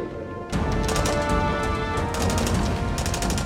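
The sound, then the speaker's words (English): Gunshots from uniformed armed men near a railway begin with an abrupt, loud burst. A rapid run of sharp cracks follows over a dense, continuous rumble. “Then the shots rang out.”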